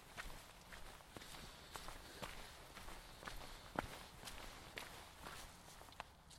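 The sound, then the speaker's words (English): Footsteps of someone walking home outdoors, a long run of soft, evenly paced steps with a few sharper scuffs, faint against quiet surroundings. “So I'm walking home now.”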